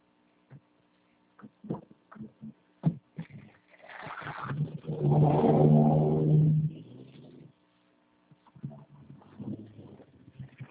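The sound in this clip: A car being driven: a swelling engine rumble with a revving quality holds loud for a couple of seconds, set between scattered clicks and knocks before and after.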